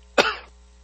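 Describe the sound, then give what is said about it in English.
A person coughs once, sharply and abruptly, while choking, followed by a brief rasping tail and then quiet. “Excuse me, choking again.”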